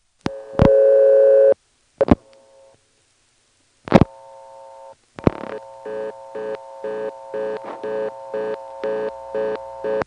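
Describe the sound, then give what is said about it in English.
Telephone tones on a callback circuit: a steady tone and a few short tones as digits, including a 1, are dialed, then a rapid, evenly pulsing blocked-call tone repeats many times until the end. “That's right, it's blocked. Yeah, they don't allow the 1 plus to be dialed on a callback circuit.”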